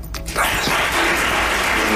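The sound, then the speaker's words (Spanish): Long, intense applause from a crowd at a ceremony in Málaga: a dense, steady wash of clapping that holds at full strength without a break. “Este ha sido el aplauso más intenso, ha durado prácticamente 4 o 5 minutos de extensión.”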